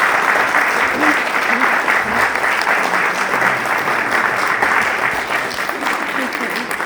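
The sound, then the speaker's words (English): An audience at a writing event applauds a panel. Full, steady clapping from many hands continues at an even level, with a voice faintly audible underneath. “But can you give my panel a round of applause, please?”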